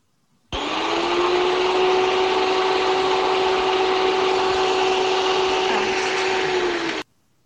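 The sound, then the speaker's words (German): An electric hand mixer runs for about six and a half seconds, giving a steady, even whir with a constant motor hum. It starts and stops abruptly and plays alone with no voices. “Das war das Rührgerät.”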